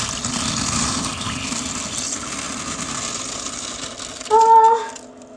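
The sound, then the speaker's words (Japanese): A person urinates in a strong stream, a steady rushing, splashing hiss lasting several seconds, followed by a brief louder burst before it quiets. “よし、じゃあおしっこします。”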